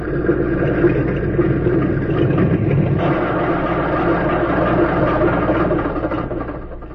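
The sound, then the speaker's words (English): A small plane's engine runs after landing on a field, giving a continuous, dense rumbling drone that holds steady and eases slightly toward the end. “Just before darkness fell, a plane circled the small field and came in for a landing.”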